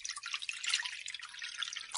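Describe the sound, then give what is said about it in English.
Water pours into an oven tray in a continuous, bright splashing trickle that wavers in strength throughout, with no talk. “So we just need to fill a tray with water.”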